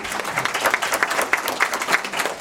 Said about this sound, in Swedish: Det tycker jag är värt en applåd.